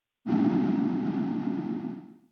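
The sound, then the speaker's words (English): Sonified ocean CO2 outgassing data rendered as a single sustained, noisy rushing burst with an abrupt start, holding steady before fading away over about two seconds. “We have a sonification of CO2 outgassing data. Let's give a listen. Let's listen to some data. As you listen, outgassing will sound like this.”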